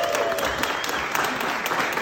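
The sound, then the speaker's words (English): Audience applause at a networking event: steady, dense clapping from many hands, loud and continuous throughout without a break. “It's been a long time coming, so a round of applause for all of you.”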